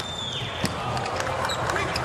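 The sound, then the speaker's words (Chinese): A volleyball serve struck in a match involving Slovenia: one sharp hit stands out against steady crowd noise, with commentary running underneath. “穆扬诺维奇的发球”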